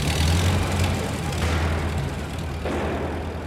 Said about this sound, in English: He clambers in and it speeds away.